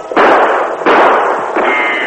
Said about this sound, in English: I'll try a quick shot.